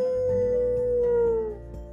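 A dog lets out a long, steady howl. The sustained, fairly high tone sags slightly in pitch before trailing off after about a second and a half, and there is no talk.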